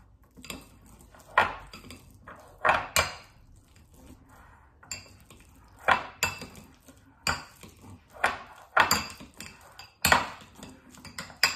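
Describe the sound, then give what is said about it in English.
Avocado being mashed in a bowl, with a utensil striking and scraping the bowl in many irregular clinks and knocks, some sharper than others, separated by short quiet gaps. “now I'm going to mash it all up. Now I'm going to mash the avocado.”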